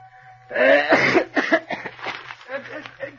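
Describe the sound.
A sudden harsh cough from someone with something caught in the throat, a short rough burst followed at once by talking.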